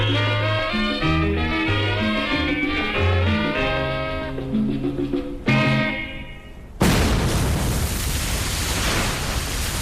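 Explosion with a fireball rising into the sky during a military offensive in Conakry: music plays first, then an abrupt, loud burst of broad roaring noise that keeps rumbling to the end.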